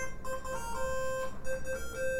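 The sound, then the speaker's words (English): Square-wave tones from the Famicom sound chip's square channels play a short melodic line of sustained, buzzy notes rich in bright harmonics, stepping between a few pitches over a faint background. “We know on the square channels of the Famicom, you can have these different sounds like this.”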